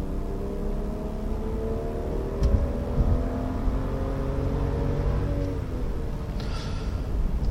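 A BMW X5 M SUV with a 300-horsepower engine and 8-speed automatic gearbox accelerates from a standstill. The engine drone holds steady and loud, its pitch slowly climbing.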